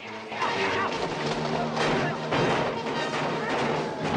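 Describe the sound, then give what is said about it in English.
Gunfire and crashing blasts sound in a chaotic film battle between revolutionaries and soldiers, with dynamite nearby. The bursts are loud, dense and overlapping, and they continue without a break throughout. “A revolutionary is shot and drops a lighted stick of dynamite.”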